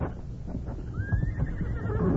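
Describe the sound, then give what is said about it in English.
A horse whinnies once, somewhere beyond a house, a thin high call that rises and then holds steady over a constant low background rumble. “There, the horse again. Yeah, it's beyond the house.”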